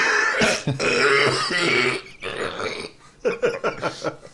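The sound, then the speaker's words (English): Harsh, raspy coughing: a rough, throaty fit up front, then a run of short, choppy coughs near the end. No one talks. “Oh, sorry, I had to cough up my second lung.”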